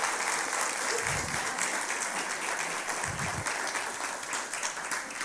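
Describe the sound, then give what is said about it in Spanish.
Strong applause from a church audience at a Sunday service, a dense, steady wash of many hands clapping that holds at an even loudness through the whole stretch. “Le damos un fuerte aplauso.”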